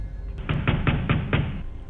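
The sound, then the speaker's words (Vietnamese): Pounding on a door in an old house: five quick, heavy knocks in an even rhythm, moderately loud over a low background hum, with no voices. “Tiếng đập cửa vang lên.”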